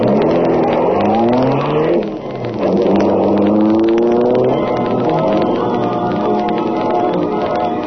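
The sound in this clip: A sleek, superpowered high-speed car engine revs loudly, its roaring pitch climbing in repeated sweeps as it accelerates hard, with no voices over it.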